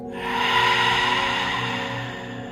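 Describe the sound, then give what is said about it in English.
A long, steady breath pushed out through the open mouth during a guided breathing exercise: a soft, continuous rush of air lasting a couple of seconds, with faint steady tones beneath. “Now deep breath in. Open your mouth, breathe out.”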